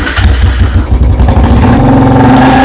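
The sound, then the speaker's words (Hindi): Royal Enfield Bullet motorcycle engine revving, a loud, dense, throbbing low thump that stays strong throughout the brief burst. “मैले जस्तो royal Enfield bullet bike चढ्नु पर्यो नि। ए सागर, तिमी यहाँ पो? आज बुलेट चढाएर मलाई घुमाउन लाने भने हैन?”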